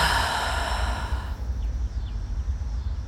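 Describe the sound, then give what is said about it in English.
A deep breath drawn out during a guided relaxation moment comes as a breathy, airy rush that is strongest at first and then fades into a soft, steady low hum. “inhale for a deep breath. And exhale.”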